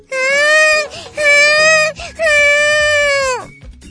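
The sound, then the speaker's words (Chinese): A baby crying in three sustained, high-pitched wails with short catches of breath between them, loud and alone, the last wail trailing downward at its end. “哎呀，朵朵哭了。”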